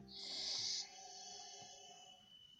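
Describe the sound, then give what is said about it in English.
A long, forceful breath pushed out with the back of the throat tightened and the lips closed gives a rough, raspy hiss. It is loud for under a second, then settles into a softer, steady airy sound. “make the breath as long as you can, slightly keeping a contraction in the back of the throat.”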